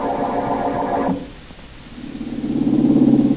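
A car engine runs steadily during a drive in the country, a low humming drone that sags briefly midway and then swells back louder toward the end.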